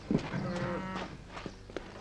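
A young cow in a pen, due to calve, gives one faint, drawn-out low moo near the start, followed by a few soft, brief sounds.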